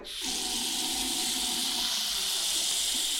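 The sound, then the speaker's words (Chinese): Water running hard from a fully opened tap into a washbasin, a steady hissing rush that starts abruptly and continues at an even, moderate level with no talking. “把这个洗手盆装满水，把水开满。”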